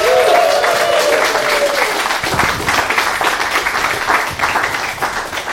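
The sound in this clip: A live London theatre audience welcomes a performer to the stage with loud, dense applause and cheering that keeps a strong, even level before thinning slightly at the end.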